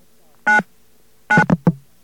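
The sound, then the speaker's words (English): Touch-tone dialing on a faulty payphone in Midtown Manhattan: one short electronic tone, a pause, then a few quick tones in a tight cluster, with near silence between them. “let's dial 9 this time.”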